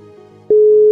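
A telephone busy signal while calling, a single loud, steady mid-pitched tone that starts abruptly halfway through and holds unbroken to the end, after a quieter murmur.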